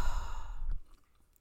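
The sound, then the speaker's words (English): A single deep exhaled breath during a guided breathing exercise, a soft, airy sigh lasting under a second that fades into quiet. “Let's breathe together three times. Inhale wisdom and exhale ignorance.”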